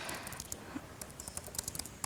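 Someone types text on a computer keyboard, making many quick, light key clicks in an irregular rhythm at a soft, even level.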